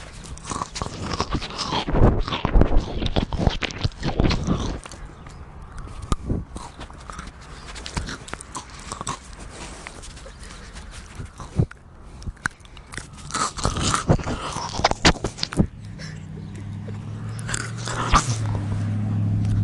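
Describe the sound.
Close-up ASMR crunching and chewing of pistachio-coloured treats being tasted: many loud, crackly bites and mouth sounds come in dense clusters with brief lulls.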